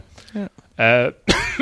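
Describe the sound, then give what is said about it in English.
Coughing: a few short, harsh, voiced bursts separated by brief pauses, fairly loud and close together. “I'm coughing.”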